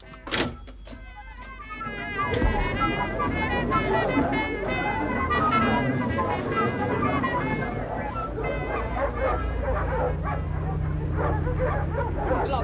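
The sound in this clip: Dogs bark, yip and whimper in distress on a city street, with many sharp overlapping yelps and whining cries continuing without a break. People's voices are mixed in with the dogs.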